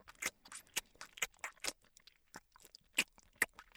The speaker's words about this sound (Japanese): くたくた音させるな。